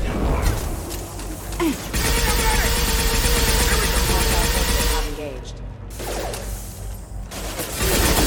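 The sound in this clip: Gunfire in a shooter video game, dense rapid bursts of shots running almost continuously, loud, with a brief lull near the end before firing resumes.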